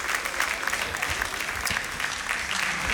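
Applause breaks out in a prison as the Pope embraces an inmate and hands her a rosary, a continuous, even patter of many hands clapping at moderate loudness throughout.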